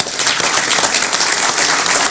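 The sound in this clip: Applause fills an audience at a speech honouring public officials: dense, steady clapping runs throughout at an even, loud level without pauses.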